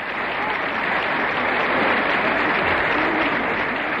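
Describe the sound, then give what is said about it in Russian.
Audience and actors in a theatre hall and on stage applaud playwright Vladimir Polyakov at the close of his creative evening, a dense, steady wash of many hands clapping, loud and unbroken throughout. “Разрешите к тем горячим аплодисментам, которые раздаются сейчас и в зрительном зале, и на сцене, присоедините наши самые добрые пожелания.”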